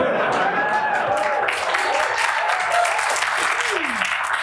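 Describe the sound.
An audience applauds to welcome the CDC players onto the stage, with dense, steady clapping that holds at an even level throughout.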